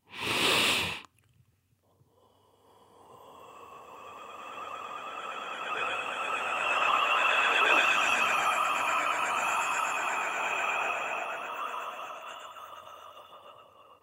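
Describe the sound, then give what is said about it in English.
Breath-driven overtone vocalizing: a long, airy exhale carries whistling overtones with a pulsing, warbling quality. It swells steadily and then slowly tapers, after a brief loud burst of noise at the start. “I call it overtone breath. And there's a warbling effect that sits at the center of the vocal technique and sound experience of it. It sounds like this.”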